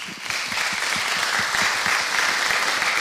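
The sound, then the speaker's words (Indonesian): Audience clapping, a steady, fairly loud patter of many hands that keeps an even level from start to finish. “Yang tepuk itu mesti kawan-kawan saya.”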